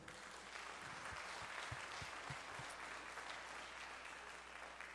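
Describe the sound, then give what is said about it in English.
Weak, half-hearted applause from an audience welcoming guests, a faint golf-clap patter of scattered hands that stays thin and quiet throughout, with no cheering on top. “Now, home folks, that was not very good. Can we give all our guests a welcome today? Come on. That almost felt like a golf clap.”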